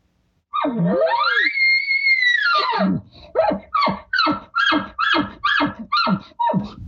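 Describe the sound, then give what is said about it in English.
An imitated bull's short bugle opens with a rising, then falling, whistle-like squeal, followed by a rapid series of short guttural chuckles that pulse in an even rhythm. “You're going to hear the short little bugle. You're going to hear some chuckles on it. And he's telling you to come over.”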